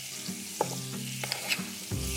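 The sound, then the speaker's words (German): A duck breast fries skin-side down in its own rendered fat, a faint, steady sizzle broken by a few small crackling pops. “Und das wird jetzt ausgelassen und dann brät quasi die Entenbrust im eigenen Fett richtig schön knusprig.”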